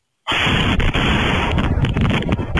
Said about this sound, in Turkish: Gece vakti husumetli olduğu kişinin evine geldi, kapının önüne patlayıcı madde bırakıp etrafa ateş açarak kaçtı. Saniyeler sonra ise mahalle patlama sesiyle ayağa kalktı.